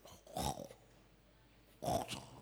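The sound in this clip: A voice imitates a sleeping pastor's snoring: two faint, rasping snorts spaced well apart, each a short throaty burst, with quiet in between.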